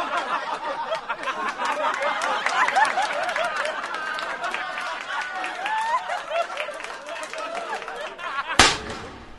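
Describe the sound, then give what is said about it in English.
A single gunshot in a radio drama of Lincoln's assassination cracks out sharply near the end, after a long stretch of crowd chatter and scattered laughter. “Sic semper tyrannis! Here's a knife! Oh, my God, the president's been shot!”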